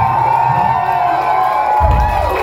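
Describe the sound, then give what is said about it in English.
An audience cheers for a band, a steady crowd roar with whoops and shouts that stays loud from start to finish. “applaud for each and every one of us here on the band.”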